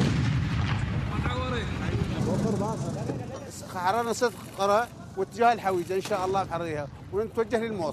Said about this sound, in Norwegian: En soldat kysser en granat før han hiver den inn i røret til ære for presten som har møtt fram.